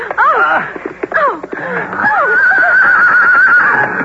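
Horse neighing loudly, a few quavering whinnies in quick succession, each sliding down in pitch.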